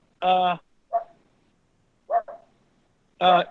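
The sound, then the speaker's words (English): A dog barks in the background: a few barks, with longer, full-toned ones at the start and end and shorter yips between them. No one talks over it. “That's the dog. The dog's in the background.”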